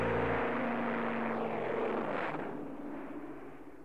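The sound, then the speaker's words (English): An airplane roars as it takes off from a runway, a broad, steady rushing engine noise that holds for a couple of seconds and then gradually fades away. “and I fly off the runway to the sky.”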